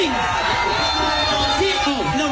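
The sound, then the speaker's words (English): A crowd of police officers boos Mamdani at a Staten Island event: a dense wash of jeering voices, with wavering vocal tones rising and falling through the short burst. “he went to an event with a bunch of cops in Staten Island, and I want to play this for you and get your reaction to it. Mamdani getting booed off the stage.”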